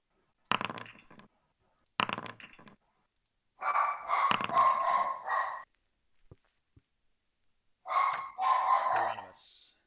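A dog barks in several bursts separated by silence, two short sharp barks first, then longer, louder runs of barking.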